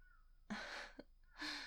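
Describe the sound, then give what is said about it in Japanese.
Crows calling in the morning: two harsh, raspy caws separated by a short, sharp sound, fairly loud against a quiet background. “今撮ってるの朝なんですけど、めちゃくちゃカラスが、カラスかな？鳥さんが、ピチョピチョピチョって言ったり、”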